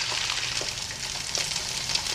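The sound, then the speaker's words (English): Eggs sizzling in a frying pan: a steady, faint crackling hiss with scattered tiny pops and no voices. “Looks like a frying pan and some eggs to me.”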